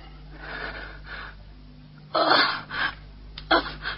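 A patient breathing deeply under ether anaesthesia: a few slow, breathy inhalations and exhalations over a steady low hum, some louder and sharper than others.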